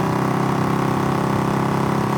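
Vehicle engine idling after stopping on an empty hard stand at the far end of an airfield. The rumble is a constant, loud, low hum with an even pulsing texture and no talk over it.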